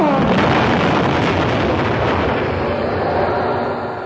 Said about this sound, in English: The computer bank is absorbing a hell of a lot of energy. I think it's about to blow.